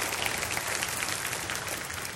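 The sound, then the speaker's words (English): Hand clapping from a church audience during a service: a dense, even patter of many hands that stays at a steady level for the whole stretch. “So church, why don't we clap our hands for all of those who have joined us through television.”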